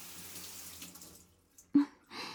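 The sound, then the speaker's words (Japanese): Water trickles faintly in a bath as someone's back is washed, then a brief sharp splash of poured water is followed by more flowing water. “お邪魔します。お背中流してあげるからね。”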